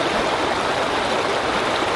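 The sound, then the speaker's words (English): A very small stream babbles steadily where Lake Itasca funnels off into the headwaters of the Mississippi River, a continuous, even rush of flowing water with no pauses. “process down to the shores of the lake, to the headwaters, where the lake funnels off into a very small stream.”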